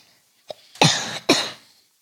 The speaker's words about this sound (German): Also wenn du schon so ein bisschen hustest, und wir hoffen mal nicht, dass das diese schlimme Krankheit ist